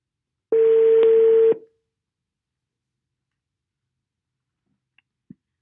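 A telephone call is dialed, and one steady telephone tone sounds for about a second before cutting off to silence. Two faint soft clicks follow near the end, with no voices.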